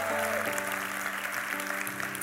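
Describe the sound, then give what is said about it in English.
Audience members in Germantown applaud together, a steady, dense clapping that runs throughout, with sustained musical tones faintly held underneath. “So, okay, everybody in this room, can you put your hands together? Welcome everybody in Germantown, everybody online, come on. Come on, take your volume up a notch.”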